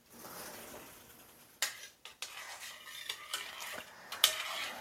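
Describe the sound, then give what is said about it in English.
Light stirring of food in a pot while cooking, a soft continuous scraping with a few sharp clinks of the utensil against the pot. “I'm just going to give this a light stirring and”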